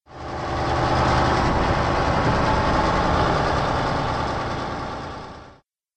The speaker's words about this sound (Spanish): El conductor maneja el aparejo grande desde la cabina. Aparejos grandes llevan cargas llamadas cargo. Un aparejo grande suena así.